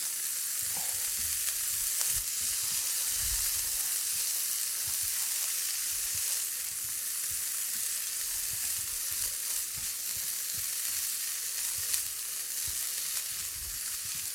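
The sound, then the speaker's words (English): Sizzling and stirring of pre-cooked barbecue pork, carrots and shallots in a hot skillet: a steady, loud frying hiss with many soft scraping stirs throughout, no talk. “Mix those around a little bit. Sorry, I forgot to talk there for a minute. I was so into stirring this beautiful skillet full of carrots and barbecue pork”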